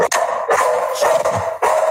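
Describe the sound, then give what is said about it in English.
A dog barks at someone at the door, giving a few sharp, loud, repeated barks in quick succession with no talk over them. “My dog. Yeah, someone at the door. You know, that worries me. I started talking USC Rutgers and the dog, the underdog started barking.”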